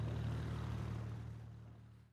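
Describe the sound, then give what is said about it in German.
A boat engine drones as the vessel motors out onto the Baltic Sea during a boat-handling training trip. The low, steady hum is loud at first, then gradually fades toward the end. “Jetzt geht es aber erstmal raus auf die Ostsee. Denn jeder soll ein Gefühl dafür bekommen, wie man so ein Boot lenkt.”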